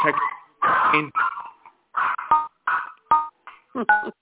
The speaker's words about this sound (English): is that your guide dog